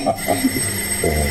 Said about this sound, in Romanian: Parcă a sunat cineva.